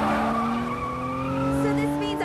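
A car lurches and skids across a carriageway on Chicago streets, its tires squealing in a sustained steady whine that lasts over two seconds.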